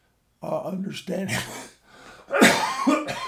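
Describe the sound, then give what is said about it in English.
Coughing from a tickle in the throat: a few harsh, breathy bursts mixed with throat clearing and voiced gasps, fairly loud, with short pauses between. “I'm sorry to be coughing so much today, but for some reason I've got a little I've got a little tickle in my throat.”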